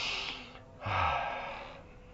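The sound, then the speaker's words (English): A soft, airy breath is drawn in through the nose after a drop of oil is applied inside it. The single quiet inhalation lasts about a second and is heard alone, without talk. “Stick it in your nose. And massage it around. And breathe in.”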